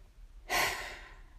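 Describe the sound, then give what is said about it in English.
A single deep breath: a sudden loud rush of air that swells quickly, then slowly fades, with no talk around it. “Take a deep breath.”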